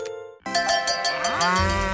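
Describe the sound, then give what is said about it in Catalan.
A dairy cow gives one long, loud, low moo with a rich, buzzing tone, starting abruptly after a short quiet tonal ring and holding for about a second and a half. “les vaques de llet”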